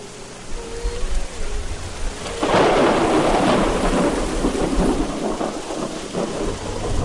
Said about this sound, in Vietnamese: Một luồng sáng cực lớn bùng lên, sóng to mưa lớn, gió quận mây vần sầm sập tuôn trào. Bao tiếng nổ lớn vang lên liên tiếp.